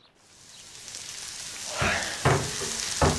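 Bacon sizzles and crackles in a frying pan, a steady hiss that grows louder and is broken by a few sharper pops of spattering fat, with no voices.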